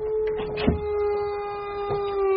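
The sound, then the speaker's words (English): A dog howls in one long, steady, mid-pitched note that drifts slightly lower as it goes on, with two brief noisy bursts over it and no talking. “Who's the good wee dog? Are you a good wee dog? Are you wanting a wee run?”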